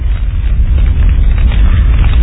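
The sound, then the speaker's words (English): A fire blazing up in dry grass, staged as a radio drama effect: a loud, steady, low rumbling roar that holds throughout without distinct crackles. “The fire leaped high to the heavens, and the countryside was ablaze.”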